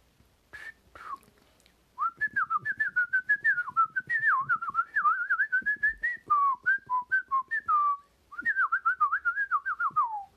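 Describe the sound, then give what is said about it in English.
A person whistles an imitation of birds tweeting: many quick, wavering high notes in several rapid runs separated by brief pauses. “Prince Jim couldn't hear anything else, only the birds making those tweeting sounds.”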